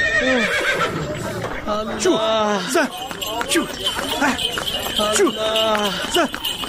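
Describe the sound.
A horse hitched to a buggy whinnies again and again as the buggy sets off: shrill, wavering neighs with bright harmonics, loud and repeated over a steady low rumble.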